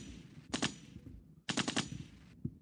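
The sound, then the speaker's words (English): Gunshots crackle in two rapid bursts of several quick shots each, like automatic fire. They sound fairly faint and sharp, separated by a short pause. “Shots fired.”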